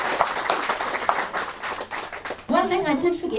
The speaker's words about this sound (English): Can we just have another round of applause for Liz?